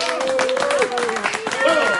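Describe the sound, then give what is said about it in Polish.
Clapping for the winner of a chess tournament, a dense patter of hands that runs throughout beneath people talking and calling out. “Szachmat! Wielkie brawa!”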